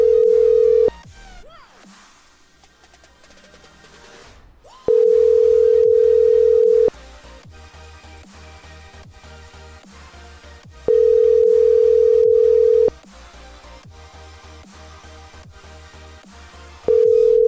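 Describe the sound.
Telephone call tones from a phone being dialled: a steady, even electronic tone that sounds in bursts of about two seconds, separated by silent gaps of roughly four seconds and repeating a few times over a faint background.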